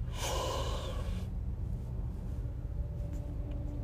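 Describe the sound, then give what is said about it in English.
A deep breath drawn in during a guided breathing exercise: one long, airy inhale lasting about a second, followed by quiet with a steady low rumble underneath. “Take a deep breath in for a 5 count.”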